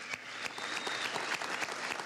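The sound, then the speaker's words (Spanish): Audience applause greeting a group of young entrepreneurs from China, a dense, steady wash of clapping that lasts the whole clip with no speech. “Un aplauso para nuestra hermana República Popular China.”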